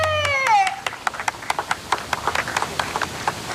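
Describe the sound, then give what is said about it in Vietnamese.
Applause after a dish is presented, heard as a run of sharp, scattered hand claps that follows a brief voice at the start. “Ăn ngon, vỗ tay hoan nghênh.”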